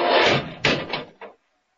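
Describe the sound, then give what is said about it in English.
Time machine doors closing: a broad, loud scraping rush, then three short, solid knocks that fade out, with no voices. “Doors, Dudley, they're closed.”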